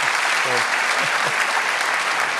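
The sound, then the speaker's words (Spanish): Applause from a church audience, a steady dense wash of clapping that fills the whole stretch evenly, with a few brief voice tones poking through early on. “Damos un aplauso a Dios por ello.”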